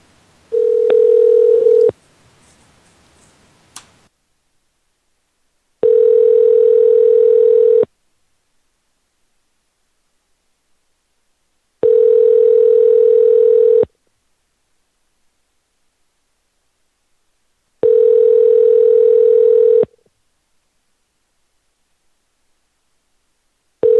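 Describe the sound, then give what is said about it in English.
Ringback tone of an outgoing telephone call: four steady, even two-second tones at a regular pace of about six seconds, with silence between them, and a fifth tone just beginning at the end. “I'll try it again, see if she picks up. Or he or she or whoever might pick up.”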